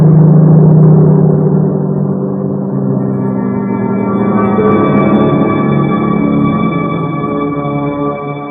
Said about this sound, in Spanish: El motor está en marcha. La calefacción se ha puesto en marcha. Las luces. ¡Todo! ¡Vámonos!